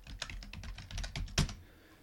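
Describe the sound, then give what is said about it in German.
Rapid typing on a computer keyboard as a script name is entered, a quick run of crisp, fairly quiet keystrokes with one louder tap near the end before it trails off, no talk. “Ich schlage vor, wir nennen dieses Skript einfach Umschalter. Ich schreibe das fort hin,”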